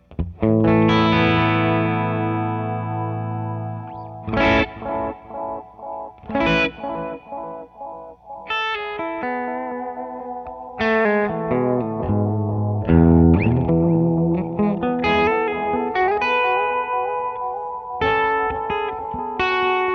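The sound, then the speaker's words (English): Electric guitar played through a delay pedal with its repeats turned up so they feed back and oscillate, tone set darker; many picked notes and chords smear into swirling echoes, loud and continuous throughout. “If I want to turn the repeats up, it's going to feed back. When I say feedback, it's going to feed back on itself and oscillate.”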